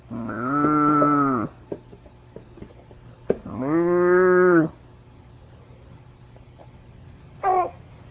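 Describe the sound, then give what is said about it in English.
Cow mooing in two long, level, harmonically rich calls of over a second each, separated by a quiet pause with small clicks, followed near the end by a much shorter, higher voiced call. “See the cow? You like him too. He goes,”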